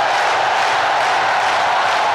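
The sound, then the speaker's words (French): Stadium crowd roaring and cheering through an improvised Mexican wave ahead of Johnny's first stadium-tour concert, a dense, unbroken wall of voices that stays loud and even throughout. “Le public ne s'y trompe pas. Une formidable holla est improvisée. On est bien dans un stade.”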